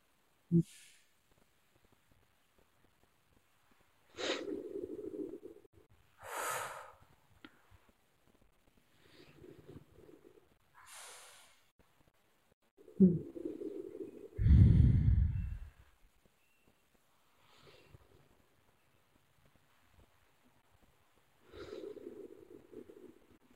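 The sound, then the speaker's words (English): Slow, deep breaths in and out during a guided breathing exercise: a few quiet, airy inhales and exhales spaced several seconds apart, with near silence between them. “take a few moments, take a few deep breaths in and out.”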